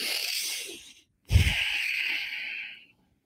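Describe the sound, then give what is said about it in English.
During a guided mindfulness exercise, a steady breath is drawn in through the nose, then after a brief pause a longer, airy breath is let out through the mouth, opening with a low puff. “I want us all to take a deep breath in through your nose and out through your mouth.”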